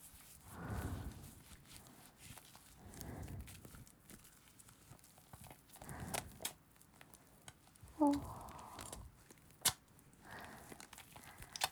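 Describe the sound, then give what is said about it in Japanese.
Soft, squelchy wet squishes of massage cream being squeezed and worked between hands, coming in several separate bursts with faint sticky pattering between them. “クリームを手の中で潰したりすると結構いい音するね。”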